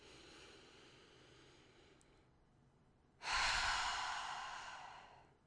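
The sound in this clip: Deep breathing: a soft, drawn-out breath in, then a louder, rushing breath out that fades gradually over a couple of seconds.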